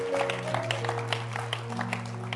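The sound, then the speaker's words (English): Audience applause for community leaders at a gathering: steady, dense clapping throughout, with a sustained low tone underneath. “Clap your hands for them.”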